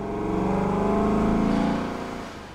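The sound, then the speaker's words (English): A small armored truck flies with a continuous engine rumble and whir that swells to a peak and then eases off slightly, with no voices. “is flying us around in her tiny enchanted armored truck”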